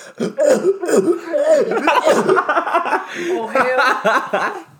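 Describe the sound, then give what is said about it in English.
A voice makes gurgling, choking noises, imitating someone trying to talk with a sword lodged in the throat. The garbled gurgles run loud and nearly continuous for about five seconds. “I feel like that's what like talking with the sword in your throat would sound like. Can we get that again? One more time?”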